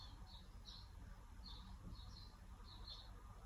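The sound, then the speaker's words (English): Faint, high birdsong outdoors, a few short chirping calls recurring over a soft, steady background hum. “Bringing your awareness back. Perhaps you can hear the birds singing.”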